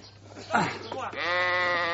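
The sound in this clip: A sheep bleats while its legs are being tied with rope: one long, wavering, nasal bleat fills the second half, after a short burst of rougher noise.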